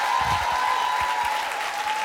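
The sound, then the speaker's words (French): Audience applause at a live recorded show: a dense, steady wash of many hands clapping that holds at an even, full level for the whole two seconds. “On peut déjà, s'il vous plaît, faire une ovation pour Acast et Amazon Music, s'il vous plaît, qui nous accueillent ici ce soir.”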